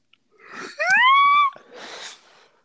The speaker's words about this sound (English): Sorry, that was my yawn. Wow, that's embarrassing.